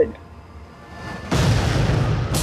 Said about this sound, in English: When exactly is this bomb going to go off? Now.